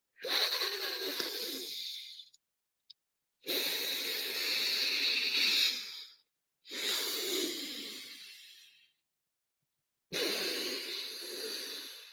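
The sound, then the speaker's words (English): Alternate nostril breathing: four long, airy, hissing breaths, inhaling and exhaling through one nostril at a time, separated by short silences, with a faint click between the first two. “one cycle is you inhale on the left and exhale on the right, and then you inhale on the right and exhale on the left”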